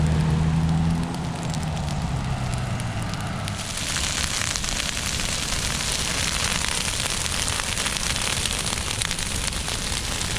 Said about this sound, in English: Mash was on the scene for the burn, and his segment begins with the sound of the flames and a question posed to Chico Fire Department Captain Mike